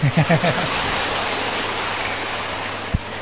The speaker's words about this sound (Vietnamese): Vỗ tay đi chứ.